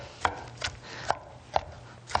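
Knife chopping broccoli into small pieces on a board: five crisp, evenly spaced chops, each a sharp tap, with no voices.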